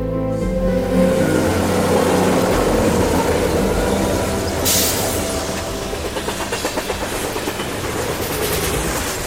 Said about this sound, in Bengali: ট্রেনটার আজ কি মতলব কে জানে। আমি কথা শেষ করার প্রায় সাথে সাথেই এত জোরে একটা ঝাঁকুনি দিল